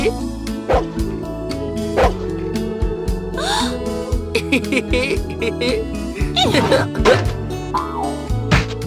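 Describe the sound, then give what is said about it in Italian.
A big Newfoundland dog barks: a few deep barks and short yips ring out over continuous music, spread unevenly through the scene. “La tata non era altro che un grosso cane Terranova di nome Nana.”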